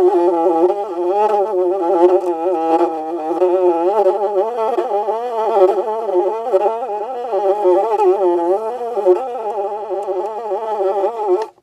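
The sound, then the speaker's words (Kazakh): A large bee buzzes in a steady, continuous drone whose pitch wavers gently throughout, heard alone without any talk. “Үлкен ара.”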